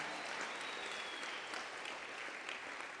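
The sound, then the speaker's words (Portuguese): Faint, steady clapping from a church audience during a service, a soft continuous patter of applause lasting the whole few seconds. “Oh, tuas palmas só são essas.”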